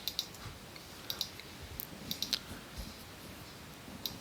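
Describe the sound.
Faint typing on a computer keyboard, heard as sparse light clicks in small clusters over a low steady background.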